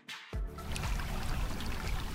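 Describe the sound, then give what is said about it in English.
Oronto Creek trickles along Saxon Harbor toward Lake Superior, a continuous hissing, gurgling water rush that swells in after a brief quieter start and stays even to the end. “The Oronto Creek is hardly more than a trickle now as it bends along Saxon Harbor toward Lake Superior.”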